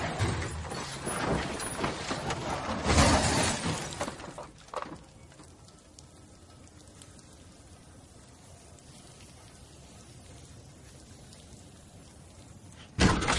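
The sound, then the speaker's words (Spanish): A car drives over metal bars and is blown into the air. About four seconds of loud crashing and shattering debris lead into a sharp hit, then a long low rumble, with a sudden burst right at the end. “Pisa unos hierros. El coche salta por los aires.”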